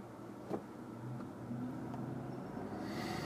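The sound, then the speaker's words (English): A Toyota SUV drives by with a steady, low engine rumble and road noise, and a brighter rushing hiss builds near the end. “This guy's driving a Toyota SUV.”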